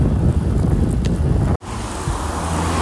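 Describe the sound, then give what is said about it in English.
Steady wind roar buffets the microphone while cycling fast on a smooth road in strong crosswind and headwind during a triathlon bike course. The low, rumbling rush drops out briefly near the middle, then resumes. “It's smooth, pretty fast, but again, lots of wind, crosswind and headwind.”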